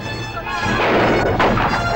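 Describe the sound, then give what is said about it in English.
Gunfire in a film shootout as Chico storms into a building with guns blazing, a loud, dense roar of shots that builds after a quieter start, with a sharp crack standing out near the end. “Emerging from behind a stone wall, Chico goes for broke and tears into a building with guns blazing.”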